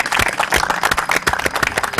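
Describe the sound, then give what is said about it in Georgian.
Quiz-show audience applauding: dense, even, continuous clapping at a steady loud level. “და აპლოდისმენტები თქვენ ამისათვის.”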